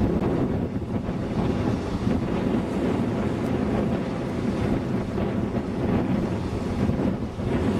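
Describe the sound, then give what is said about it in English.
Gusty, stiff wind blowing by the water with waves washing in, a continuous loud rushing roar buffeting the microphone throughout, with no voices. “Here's some more wave action. It's really quite gusty right now. It's a good stiff wind blowing.”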